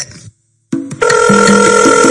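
A telephone ringing: a few short clicks, then a loud, bright electronic ring with steady repeating tones that runs to the end.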